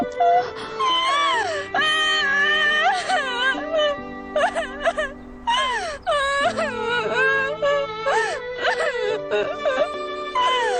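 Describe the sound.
A person cries and wails loudly, with long, high, wavering wails that glide up and down and break into sobbing catches, continuing almost without pause.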